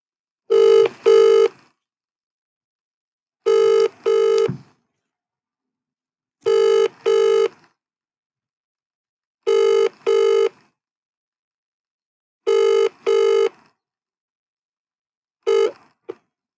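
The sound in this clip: A telephone rings unanswered in a regular double-ring pattern. Five full pairs of rings come about three seconds apart, separated by silence, and a sixth is cut short.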